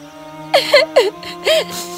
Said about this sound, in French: La reine et la comtesse l'entendirent pleurer et allèrent rapidement la voir.